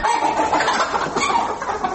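Chickens cluck and call without pause on a small family poultry farm whose flock has been struck by a viral disease. The overlapping calls form a steady, busy chorus with no lulls.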